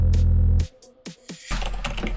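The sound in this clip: Typing on a computer keyboard: a few sharp keystroke clicks heard briefly on their own between stretches of a loud, steady, low sound.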